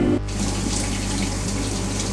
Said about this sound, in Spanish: ¿A quién le toca lavar los platos? ¡Ufa!